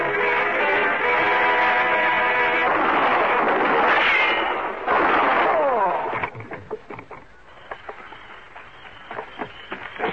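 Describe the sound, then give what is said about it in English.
Gunshots in a radio drama: a few sharp, dry cracks and clicks break in after a stretch of sustained music, spaced irregularly and fairly loud. “Dollar, what was that noise? You been hurt? Then that was shots I heard.”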